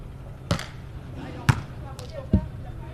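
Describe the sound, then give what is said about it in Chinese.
A ball is struck in a team match as a serve goes over the net. Three dull thuds are spaced about a second apart over a steady background murmur of voices. “好的发球，掉过网，哦，可惜了。”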